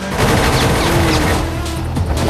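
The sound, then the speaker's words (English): Helicopter machine guns fire at a road in a loud, continuous rattling barrage. The dense, rapid shots blur into a sustained roar with no clear pauses. “The chopper lets rip with its guns, tearing up the road behind her.”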